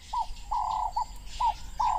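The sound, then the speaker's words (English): Wading birds call at a marsh at sunset, giving five clear, mid-pitched tonal notes of varying length that are fairly loud over a low background rumble. “At sunset, as the temperature falls, the wading birds join the scene.”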